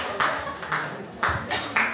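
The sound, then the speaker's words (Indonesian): Hand clapping given as encouragement: a few sharp, separate claps spaced irregularly, each a short bright burst. “Yeay, beri tepuk tangan. Semangat.”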